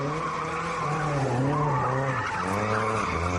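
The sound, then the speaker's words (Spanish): Tires squeal continuously as cars skid, spin and rev during illegal street racing in a shopping-centre car park in Siero in the early hours of a Saturday. The loud screech wavers in pitch over an engine drone for about three seconds. “Carreras ilegales, derrapes, trompos de 360 grados, aceleradores a tope, frenadas bruscas”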